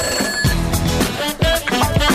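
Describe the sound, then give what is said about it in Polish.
A telephone rings with a bright, melodic electronic tone, repeating in a few steady pulses. It stays loud and even, with no talking over it. “Telefon dzwoni, już sprawdzamy, kto po drugiej stronie.”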